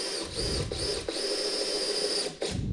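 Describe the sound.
A power driver sends a 3-inch screw into wood with a loud, steady, high whine. A few brief dips in the motor interrupt it.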